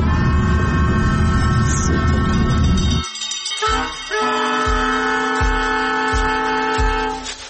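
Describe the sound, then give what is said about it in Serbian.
A train on the line near Konjic heading to Mostar: a steady rolling rumble with a sustained tonal whine, a brief drop, then regular low wheel thumps under a persistent humming tone. “Izlazim iz voza u Mostaru”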